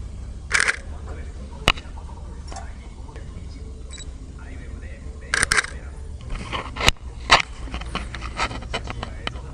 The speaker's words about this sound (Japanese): とりあえずシアタールームの写真だけ撮ろうかな。